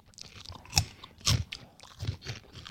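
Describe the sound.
Crunchy, worm-shaped snack made from fermented milk is chewed in several crisp, irregular crunches. The two sharpest bites come early, followed by softer chewing crackles.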